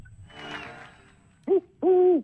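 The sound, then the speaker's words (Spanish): Two owl hoots, a short one followed by a longer, sustained one, both clear and fairly loud after a faint breathy rustle at the start. “¡Vamos con el búho! ¡El búho! ¿Cómo hace el búho?”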